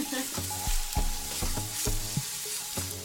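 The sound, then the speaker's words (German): Onions frying in butter while a 17th-century recipe is cooked: a steady, bright sizzling hiss runs throughout, with a few louder bursts and low tonal clatter from the pan. “Man merkt jetzt auch, dass es anfängt so fein schmecken nach angebratenen Zwiebeln und ja. Butter.”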